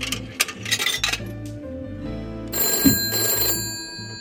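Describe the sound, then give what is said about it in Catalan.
A telephone rings during a call from a phone booth, its steady bright tones sounding alone and fairly clear over a low background rumble. “En Nicolás truca des d'una cabina i el seu pare li respon que millor que vingui a peu, que ell està mirant la tele.”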